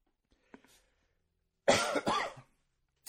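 A single loud, harsh cough in a couple of quick bursts rises suddenly out of near silence, after a few faint small sounds, then stops abruptly.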